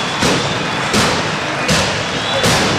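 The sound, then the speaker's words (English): Fireworks go off in a stadium as teams enter for a rugby league match: four deep, booming bursts at even intervals over a continuous loud wash of noise. “Sprinkles are out, the fire's out, the fireworks about to hit us as the Bradford Bulls and St Helens enter”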